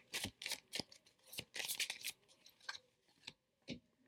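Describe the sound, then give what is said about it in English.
Tarot cards being shuffled and drawn: many soft, papery swishes, flicks and snaps come in an irregular rhythm. They are faint and there is no talking. “I'm going to take one more card.”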